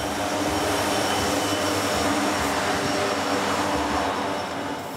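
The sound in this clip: EMD diesel locomotives rated at 3,000 to 4,300 hp haul a manganese ore train in Gabon. The loud, steady droning rumble carries sustained engine tones and eases slightly at the end.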